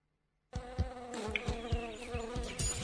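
Mosquito buzzing: a steady, harmonic drone with a thin high whine. It starts abruptly after half a second of silence and runs unbroken to the end, with soft regular pulses beneath it.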